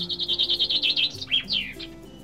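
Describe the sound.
Sparrows chirping as they feed on a fig tree: a rapid run of bright, high chirps, then a few longer sweeping calls that drop in pitch, with no talk.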